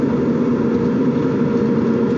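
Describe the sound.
Car engine running while driving, a low, continuous droning hum with steady road rumble, even in loudness and with no voices.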